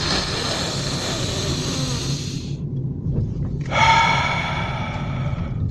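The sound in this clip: A deep breath taken during a breathing exercise, heard as a long airy rush of air, a brief pause, then a second breathy rush. The sound is fairly loud and there is no talk over it.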